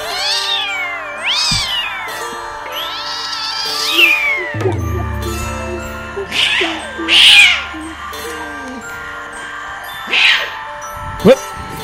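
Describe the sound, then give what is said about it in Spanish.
A cat meows several times, loud and wavering, some calls drawn out and others short, over a steady low hum. “Cierra que escapa el gato.”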